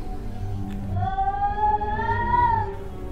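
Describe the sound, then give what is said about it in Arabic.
A cat meows in distress, a horror drama effect: one long, drawn-out, wavering cry that swells and then fades, over a low rumbling bed. “سمعنا صوت القطة تاني. كان كأنه قطة فعلا بتنازع وبتستغيث وبتطلب المساعدة.”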